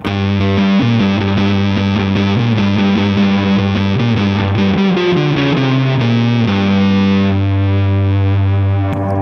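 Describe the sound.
An electric guitar played through a Big Muff fuzz pedal gives a thick, heavily distorted tone. Loud sustained notes shift in pitch over a steady, dense wall of sound that fades out at the end.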